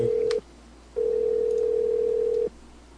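A telephone call to a motel is placed: a steady ringing tone cuts off, and after a short pause a longer tone sounds and stops. No voices are heard.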